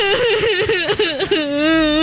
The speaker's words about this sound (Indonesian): Loh, kok makin kenceng sih nangisnya?